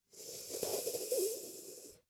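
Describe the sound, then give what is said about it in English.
A hissing, wheezy inhale drawn through a tongue curled inward like a taco, one long, quiet, airy breath of about two seconds. “Turn your tongue inward. And you're going to inhale through the tongue with the edges turned in.”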